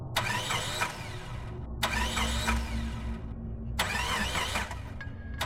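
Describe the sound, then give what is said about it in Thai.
Car that has stalled failing to start: three long bursts of the starter motor cranking, each with a bright whirring rattle, over a steady low rumble, with no catch or rev between attempts. “แต่ทันทีที่เหยียบคันเร่งรถก็ดับและสตาร์ทไม่ติด”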